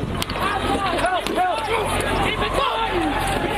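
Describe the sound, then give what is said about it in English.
Crowd clashes at the Unite the Right rally in Charlottesville, Virginia: a loud, continuous din of many voices shouting and yelling over one another, with no pause in the noise. “That's the sound of those clashes on Saturday.”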